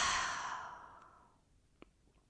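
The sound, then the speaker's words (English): A long, sighing exhale on the final breath of a guided meditation breathing exercise: one breathy release that starts full and slowly fades away over about a second, followed by a faint click in near silence. “Last time, take a deep inhale, breathe in light, Om, exhale, release.”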